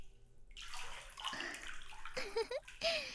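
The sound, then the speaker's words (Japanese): Warm water pours and splashes over hair during a hair wash, a steady rushing wash that starts after a short pause and continues to the end, with a brief louder surge near the close. “お湯で髪を濡らしますね。”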